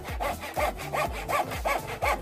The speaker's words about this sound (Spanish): También podrá llevarse este increíble serrucho.